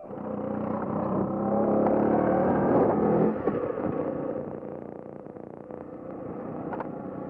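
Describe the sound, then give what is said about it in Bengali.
A motorcycle engine drones steadily as the bike carries a rider and passenger along the empty Red Road. The loud, rushing hum builds through the first few seconds, then eases to a lower, even drone. “Motor সাইকেলে red road ধরে তখন ছুটছিলাম”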